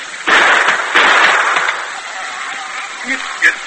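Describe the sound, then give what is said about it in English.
A gun is fired to shoot the lock off a chest: two loud, sharp bangs in quick succession, followed by a few quieter knocks and small noises. “Stand back here a ways and shoot the lock off,”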